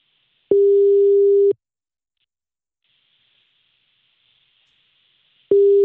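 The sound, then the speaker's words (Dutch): Ringback tone of an outgoing phone call to a father that is not yet answered: two steady, mid-pitched tones about a second long, separated by about four seconds of near silence. “Ja, we gaan nu bellen. Oh, we gaan nu je vader bellen.”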